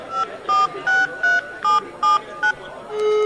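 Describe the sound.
A phone number is dialed on a touch-tone keypad: eight short, clear dual-tone beeps come in quick, fairly even succession, then a steady tone begins and continues to the end.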